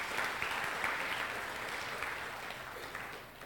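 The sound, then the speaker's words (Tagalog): An audience applauds the Lord during a church service: continuous, even clapping that stays steady and tapers slightly toward the end. “Palakpakan natin ang Panginoon, mga kapatid.”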